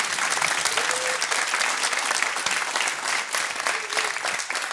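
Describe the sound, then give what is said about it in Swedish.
An audience applauds a stage performance with dense, continuous clapping that stays loud and even from start to finish. “En applåd från scenen ute i publiken.”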